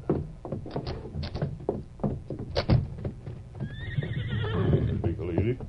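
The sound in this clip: A ridden horse gives a long, wavering whinny in the second half, after a stretch of talk, with clip-clopping hooves underneath as riders set off along railway tracks.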